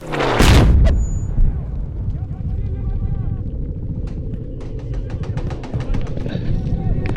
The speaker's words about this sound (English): In this case, a Marine unknowingly detonated the IED.